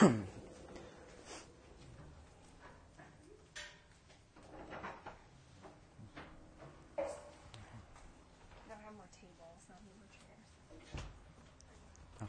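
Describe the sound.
Folding chairs being handled as people gather for a yoga class, giving a scattered series of knocks, clanks and scrapes at moderate loudness while people talk throughout.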